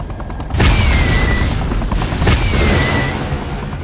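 Rocket explosions in a video game: two heavy booming blasts, the first near the start and the second past the midpoint. Each is followed by a thin falling whistle over a loud, crackling rumble that keeps going between them.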